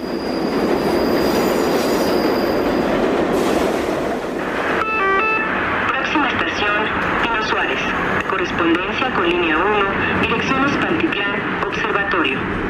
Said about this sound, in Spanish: Quien ha vivido en la Ciudad de México sabe que un día sin escuchar la voz del metro es casi imposible. El metro es un viaje subterráneo donde los sonidos nos recuerdan que esta ciudad nunca se detiene.